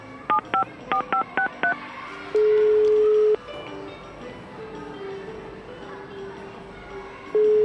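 A telephone number is dialled with a quick run of short keypad tones, followed by a long, steady ringback tone. A faint hiss continues underneath, and a second ringback tone starts at the end.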